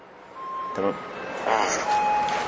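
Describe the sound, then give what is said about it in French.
Truck passing by with a low, muffled engine rumble. Thin, intermittent beeping tones sound above it, and the rumble grows slightly louder toward the end. “attends on va laisser passer le camion là”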